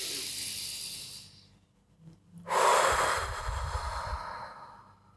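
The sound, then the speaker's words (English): A slow, deep breath taken with the whole body: two long, airy breath sounds separated by a quiet pause, the second louder and fuller than the first, with no talk. “Go ahead and take a deep breath with your whole body.”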